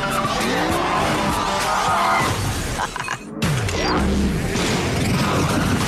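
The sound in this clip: Tires squeal as a car skids during a driving stunt in a movie trailer, layered with roaring engine noise, crashing and shattering glass. The dense action sound dips briefly midway, then surges back.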